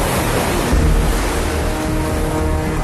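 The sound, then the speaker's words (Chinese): Stormy ocean waves at sea pound in a dense, unbroken roar of surf and wind noise that stays loud and steady throughout. “舟行海上，遭遇风暴，恶浪滔天”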